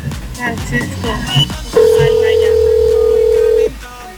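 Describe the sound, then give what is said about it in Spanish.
A steady telephone dial tone sounds as a call is being placed, holding one even pitch for about two seconds before cutting off, following a short stretch of mixed sounds. “Ya le van a marcar en ese momento”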